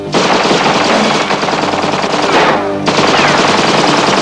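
Loud, rapid gunfire with bullets flying as people run through a city under attack by armed nomads: continuous rattling bursts, a short dip near the middle, then the barrage resumes just as dense.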